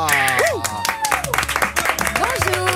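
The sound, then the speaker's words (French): Applause from a studio audience welcoming a guest: a short burst of clapping heard under voices speaking. “applaudissements pour Laura.”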